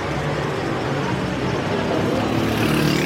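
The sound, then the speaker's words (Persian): A motorcycle carrying a man and a woman passes a car that has pulled over beside a boulevard. Steady engine and road noise holds throughout and swells slightly toward the end. “یه موتور که یه آقا خانم سوارشن از کنار ماشین مالک رد میشه.”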